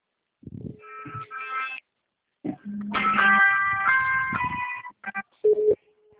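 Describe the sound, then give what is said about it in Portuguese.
A video call ringing on a phone: bursts of electronic melodic tones separated by short pauses, with a few brief beeps near the end. “Vou te ligar a chamada de vídeo.”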